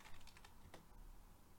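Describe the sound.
Rapid, faint clicking of a computer keyboard as a search query is typed, the keystrokes coming in quick, uneven runs with no talk.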